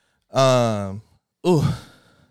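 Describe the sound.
Two loud, voiced sigh-like breaths, each a drawn-out exhalation with an audible vocal tone, the second shorter and trailing off, with no other sounds.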